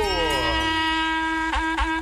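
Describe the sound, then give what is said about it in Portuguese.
A berrante cattle horn is blown, starting with a wavering, sliding tone that settles into a steady, loud held note, followed by a few short pulses near the end. “Berranteiro vai repicando o berrante.”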